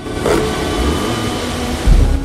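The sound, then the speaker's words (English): Car engine rumbling as the vehicle rolls up to a barrier in pitch darkness, a steady low drone with a heavier low thump near the end. “Their car pulls up to a barrier, their headlights illuminating a sign, Rock Creek Park, open May to October.”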